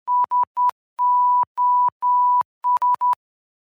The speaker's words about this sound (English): That's what I'm doing right now, actually. It's cool that I have this this sensor key that I can inadvertently use as a Morse key.